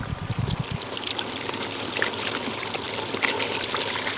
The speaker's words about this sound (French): Et ensuite, la table pivote et va s'installer sous le vérin hydraulique qui va se lever et presser tout ça et le jus va enfin en sortir.